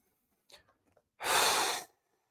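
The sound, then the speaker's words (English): Breathing during a guided relaxation exercise, in through the nose and out through the mouth: a few faint short sounds, then one long, loud, rushing breath out that stops abruptly. “If you breathe like that, in through the nose, out through the mouth, as you let go any particular body part.”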